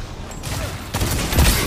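Shotgun fire in the online shooter Destiny 2 during a Control match: a few sharp, punchy blasts with broad crackling tails, each cutting through a steady backdrop of game noise.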